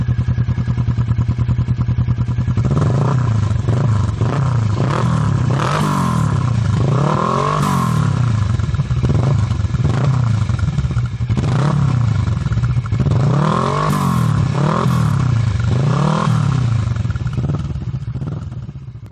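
A motorcycle fitted with a full aftermarket exhaust system revs hard on a dyno. The loud, raspy engine runs continuously, with repeated rising and falling revs and crackling exhaust.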